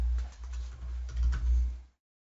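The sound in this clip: Typing on a computer keyboard: light, irregular key clicks over a low steady hum, stopping abruptly near the end.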